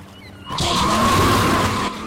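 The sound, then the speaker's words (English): Tyres skidding as a red Mitsubishi Evo drifts on a jetty at Tokyo's waterfront: a sudden, loud screeching rush that holds for just over a second, then cuts off. “Sean swings the red Mitsubishi Evo round in an attempt to drift and slams into creels.”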